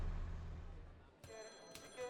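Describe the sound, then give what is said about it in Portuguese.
A black rotary dial telephone ringing in an office, a faint metallic bell that begins partway through after a low rumble, sounding in short trilling bursts. “O telefone preto de disco toca”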